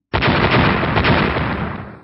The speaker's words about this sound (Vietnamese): Một tiếng nổ cực lớn chấn động thiên địa truyền ra